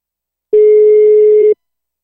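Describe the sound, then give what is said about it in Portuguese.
A single telephone ringback tone sounds while an outgoing call waits to be answered: one steady, unbroken mid-pitched beep about a second long, alone, with silence before and after. “Ela tá chamando.”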